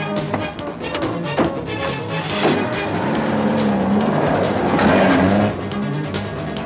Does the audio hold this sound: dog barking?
no